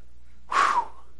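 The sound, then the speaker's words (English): A preacher catches his breath after preaching hard, letting out a single short, sharp, breathy gasp that stands out loudly against near silence. “Man, can I breathe for a second? You know what's so funny? Man, I start preaching so hard, my ribs start to ache.”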